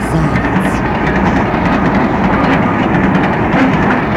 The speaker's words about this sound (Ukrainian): Зайців завантажили у поїзд.